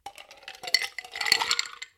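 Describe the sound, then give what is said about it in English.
Ice cubes drop into a mixing glass for a clear stirred cocktail, making many bright clinks and rattles in two quick clusters. “All right, I'm adding ice.”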